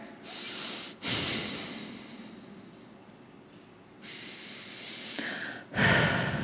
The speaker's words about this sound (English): In through the nose and out through the mouth.